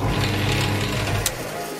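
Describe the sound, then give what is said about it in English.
A cotton candy machine spinning liquefied sugar round at high speed gives a dense, continuous mechanical whir with a low motor hum and a brief sharp tick near the end, with no voices. “we place the liquefied sugar into our circular machine, which spins it round and round really fast.”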